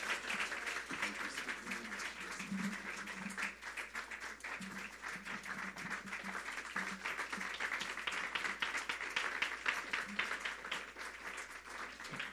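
Applause from a church audience welcoming a pastor, a dense and steady roar of many clapping hands that holds at an even loudness for the whole stretch.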